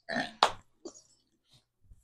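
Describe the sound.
A voice imitates a fart: a short raspy blurt, then a sharper, louder burst, followed by a few faint small sounds.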